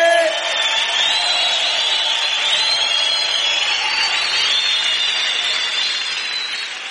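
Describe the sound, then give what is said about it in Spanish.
Church audience praising Jesus Christ with a sustained roar of cheering, whoops and raised voices. It stays loud and steady throughout and eases slightly near the end. “¿Por qué no le das fuerte ese aplauso al Señor Jesucristo? ¡Dáselo fuerte!”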